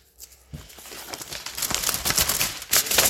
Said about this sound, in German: Ich reiße das ähm, Kuvert auf.